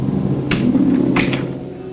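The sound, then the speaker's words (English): A door closes behind a man leaving a hotel suite, with a few soft clunks and bumps over a steady low hum before the sound quiets. “The three men file out of the suite. Wilmer takes one last hard look back at Sam before closing the door behind him.”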